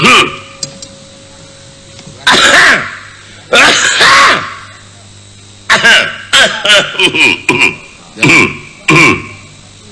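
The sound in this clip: Repeated throat clearing, loud harsh raspy grunts in several separate bursts and clusters with short silent gaps between them, some bursts voiced and gravelly.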